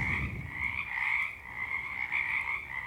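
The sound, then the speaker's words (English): Frogs croak in a dense chorus, a steady, loud, continuous din of overlapping calls with a gentle pulsing swell and no voices. “Let's listen to the frogs for a minute. Just by themselves. The glorious din. The symphony of the frogs.”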